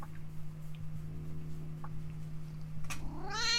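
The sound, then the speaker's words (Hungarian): A house cat gives a single rising, harmonic meow at the very end, after a low steady hum and a few faint ticks. “És itt a cica is.”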